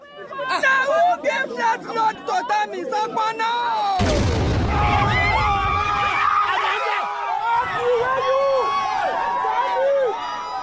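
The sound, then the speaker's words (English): A bomb explodes at a political rally in a Nigerian radio drama: crowd chatter gives way to a sudden loud blast about four seconds in, followed by sustained rumbling noise with voices continuing over it. “the package actually contained a bomb”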